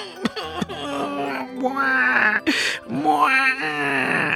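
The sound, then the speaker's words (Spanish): A voice imitates a boy crying bitterly, pretending to weep: drawn-out wailing, moaning sobs that waver in pitch, broken by a few short catches of breath, fairly loud throughout. “Conociendo sus intenciones, fingió llorar amargamente.”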